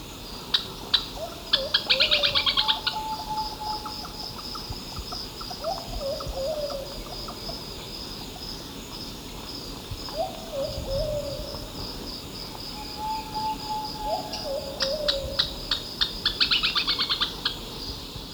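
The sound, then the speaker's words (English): Calls of a Plumbeous Pigeon and a Thrush-like Antpitta: short, soft, descending whistled notes repeat at intervals, while bursts of high, rapid buzzy trilling come near the start and again near the end. “Two, with Plumbeous Pigeon and Thrush-like Ant Pitta.”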